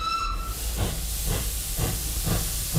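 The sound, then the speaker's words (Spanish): A monorail train moving slowly along gives a steady, fairly quiet hissing rumble with soft rhythmic thumps roughly every half second, and a brief high tone at the start. “El Chano y Curro consiguen escapar de la turba de acreedores que los acechan subiéndose al monorraíl.”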